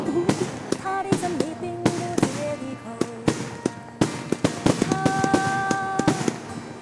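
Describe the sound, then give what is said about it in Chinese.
Fireworks explode in many sharp bursts and crackles at an irregular rhythm, some leaving brief ringing tones, with people talking in between. “今天的烟花就是给万姐准备的，漂亮吗？”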